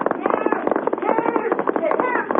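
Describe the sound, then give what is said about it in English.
Gunshots ring out as a rapid series of sharp cracks and bangs, mixed in with people talking over them. “Hey, here's somebody shooting.”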